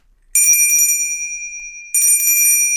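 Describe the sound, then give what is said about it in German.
A small brass bell is struck twice, each time giving a bright, high, clear ring. The tone from the first strike hangs on and fades slowly before the second ring. “Viel schöner ist jetzt so ein kleines Messingglöckchen.”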